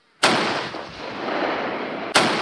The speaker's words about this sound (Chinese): 随即单炮对目标进行精准打击，成功摧毁敌目标。